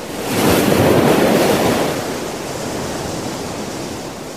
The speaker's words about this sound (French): Il s'enfonça dans la mer qui était devenue noire comme de l'encre. La mer se déchaîna.